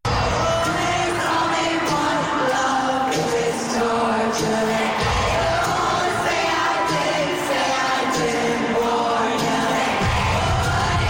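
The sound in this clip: Audience at a stadium pop concert in Sydney cheering loudly, a dense, continuous crowd roar with voices blending together and no break in intensity from start to finish.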